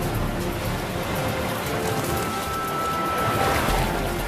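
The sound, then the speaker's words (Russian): Rough, churning sea waves surge in a continuous broad rush of water. The roar stays steady throughout, swelling slightly toward the end, with no voices. “Борется с волнами. Волны захлестывают его.”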